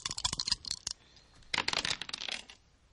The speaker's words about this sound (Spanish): Ahora ella tira 10 dados de 6 y veremos si saca más o saca menos.